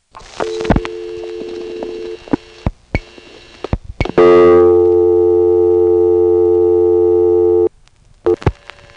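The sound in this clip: A telephone exchange local supervision test tone holds as a steady, buzzy, harmonic-rich drone for about three and a half seconds. Sharp switching clicks and a fainter earlier tone come before it, and a few clicks follow.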